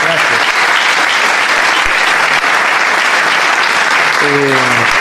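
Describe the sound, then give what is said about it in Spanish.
Loud audience applause greets a guest on a television show, a thick, unbroken roar of many clapping hands lasting the whole clip, with a voice rising over it near the end. “Vamos a aplaudirlo en este mismo momento.”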